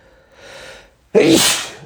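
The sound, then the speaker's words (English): A single human sneeze: a soft, breathy intake builds briefly, then a sudden loud burst that trails off, with no talking. “sorry. I moved away from the microphone. If that sneeze just went right into your ear, I apologize.”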